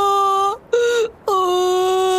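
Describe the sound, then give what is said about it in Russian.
A child crying in loud, drawn-out wails: three sustained, high-pitched sobs with a steady tone, separated by brief pauses, and no other voices. “Чего ты плачешь, дитятка?”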